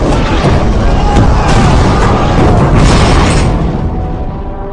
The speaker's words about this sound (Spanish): Un proyectil atraviesa el blindaje del costado de babor y explota entre ellos, matándolos a casi todos.